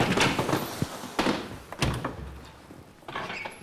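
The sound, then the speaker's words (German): A few dull wooden thumps and scrapes as a chair is carried over and set down on the floor, fairly faint, with no talk. “Ach so, dann nehme ich auch einen Stuhl. Ja, okay. Schauen Sie, den bringe ich hier.”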